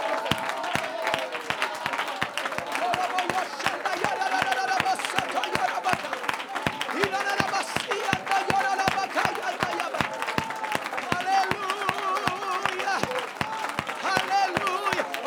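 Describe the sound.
A church audience shouts and applauds during worship, with a dense, steady beat of rhythmic clapping under a loud, continuous mass of raised voices.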